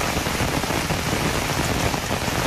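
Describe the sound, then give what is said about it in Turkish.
A heavy downpour pours down in Fatsa, Ordu, a dense, loud, unbroken hiss of rain striking surfaces, steady throughout with no voices. “Ordu'nun Fatsa ilçesinde de sağanak etkiliydi.”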